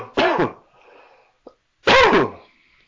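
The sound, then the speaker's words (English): Someone coughs after inhaling water: two loud, harsh bursts separated by a pause of over a second, each ending abruptly into quiet. “I was coughing earlier, and it's because I inhaled water.”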